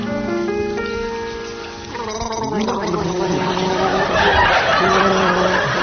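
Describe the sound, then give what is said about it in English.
Two men gargle a song for a team to identify in front of a studio audience, warbling pitched bubbling tones that rise and fall in a tune, with scattered chuckles and laughter building underneath. “will begin gargling as soon as the studio audience have donned their waterproof clothing.”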